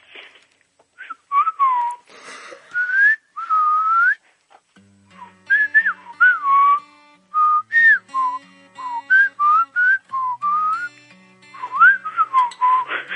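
A caller whistles a tune over the phone: many short melodic phrases with sliding, wavering pitch, clear and fairly loud, with no talk.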